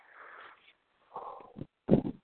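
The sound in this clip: A deep breath is drawn in with a long, soft breathy sound, followed by two shorter and louder breathy puffs, with no speech.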